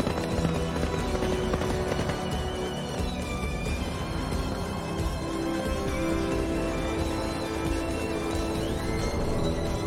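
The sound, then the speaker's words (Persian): Horses gallop as characters flee on horseback in The Witcher 3 video game: a continuous, even rush of hoofbeats, loud and unbroken throughout, blended with a dense music score. “صحنه ای که لازلاو و سیریلا با اسب فرار میکنن.”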